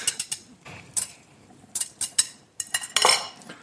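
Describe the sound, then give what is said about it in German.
Metal utensils clink and scrape in a hot pot as cooked pasta is tossed with egg and bacon: a run of sharp, irregular clatters and scrapes separated by brief quiet gaps. “Und jetzt. Vermengen. Vermengen. Und da reicht eigentlich wirklich die Restwärme der Nudeln und ein heißer Topf.”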